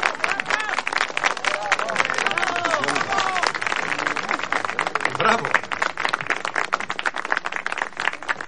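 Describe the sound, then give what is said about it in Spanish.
Guests applaud a pair of dancers: dense, steady clapping fills the whole stretch, with voices talking over it. “Los invitados aplauden a la pareja de bailadores.”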